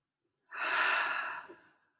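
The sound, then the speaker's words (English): A single deep, airy breath during a calming breathing exercise. It is smooth and steady, with no talk, and fades gently at the end. “Hold at the top. And exhale. Two more of those.”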